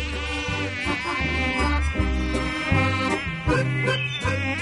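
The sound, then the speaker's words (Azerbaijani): A fly buzzes while circling inside a cave. The whining drone is continuous and steady in loudness, and its pitch shifts up and down as it goes. “Milçək vızıldaya mağarada bir iki dövrə vurandan sonra aslanın burnuna qondu.”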